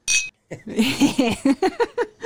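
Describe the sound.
Drinking glasses clink together in a toast: one bright, ringing clink. Voices follow right after it.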